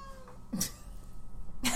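A cat gives a couple of short, faint meows over a steady low background hum, with quiet stretches between the calls.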